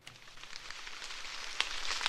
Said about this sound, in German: Leichter Nieselregen prasselt auf den Maisacker von Thorsten Sturm aus dem fränkischen Obernzenn.